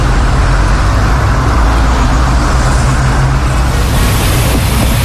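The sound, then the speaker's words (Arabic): Road traffic in a jam, a loud, continuous roar of engines and tyre noise that holds steady throughout with no pauses and no voices. “في زحمة بالطريق”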